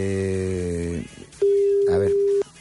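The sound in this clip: A telephone ringback tone plays while a call is placed: a buzzy harmonic tone fades out, then a single steady, clear beep holds for about a second before cutting off.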